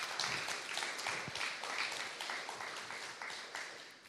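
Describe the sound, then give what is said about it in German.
Steady audience applause at a German event, thanking a speaker after her presentation; a dense, even patter of many hands continues for the whole stretch at a fairly faint level. “Noch mal einen Applaus bitte für die Regina Regel”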